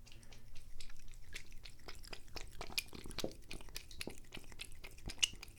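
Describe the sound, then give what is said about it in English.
A cat laps bath water from a full tub in a fast, irregular run of faint, wet clicks and licks over a quiet, low background. “That was the sound of my cat drinking the bath water”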